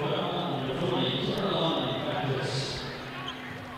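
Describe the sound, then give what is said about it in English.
A basketball dribbled out in the final seconds of a women's college game involving Middle Tennessee, the bounces buried under loud, steady crowd noise that eases slightly toward the end. “She'll dribble the final seconds away.”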